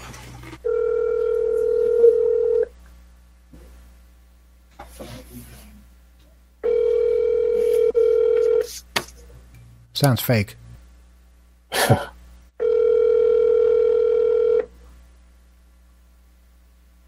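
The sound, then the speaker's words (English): Telephone ringback tone on an outgoing call to a number from a phishing email posing as PayPal: three steady, humming two-second tones separated by pauses of about four seconds, with people talking in the gaps. “Must be busy. No, that's a ring. A busy signal goes do do do.”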